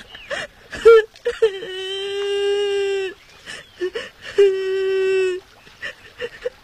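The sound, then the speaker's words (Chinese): A child cries, lost and left behind, in two long, drawn-out wails held at a fairly steady pitch, each lasting one to two seconds, with talking and short sobbing sounds between and around them. “小朋友啊，怎么了？为什么在这儿哭啊？啊，别哭了，别哭了。”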